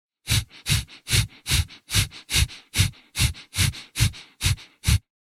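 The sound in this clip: Rapid, forceful nasal breathing in the breath of fire yogic exercise, done during a crown chakra meditation. Twelve sharp, evenly spaced huffs come in a brisk, steady rhythm with nothing else heard.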